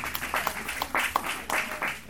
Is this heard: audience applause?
yes